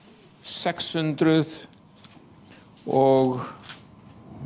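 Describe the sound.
A Bible's pages are flipped to the Psalms, giving a few brief papery rustles and flicks between stretches of talking.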